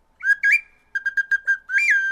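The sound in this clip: Bird calls played on a Mexica chichtli whistle: bright, high whistled chirps, with two longer notes at first, then a quick run of short chirps, and a final sustained note that wavers.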